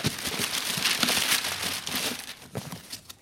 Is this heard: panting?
no